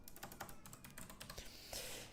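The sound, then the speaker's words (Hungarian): Typing on a computer keyboard as the game name Of Rise and Ruin is entered: a quick, uneven run of many faint keystrokes, heard alone, with a slightly louder burst of clicks near the end. “Tényleg be is írom a játék nevét. Of Rise and Ruin.”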